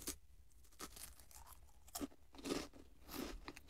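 Faint crunching and chewing as someone bites into cream bread, with a few soft, irregular bites and wet mouth sounds and no talk.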